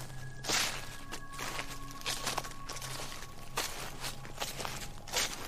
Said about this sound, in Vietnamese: tiếng bước chân dẫm trên nền đất làm gãy những cành cây khô, trở nên rõ ràng tiếng răng rắc soàn soạt.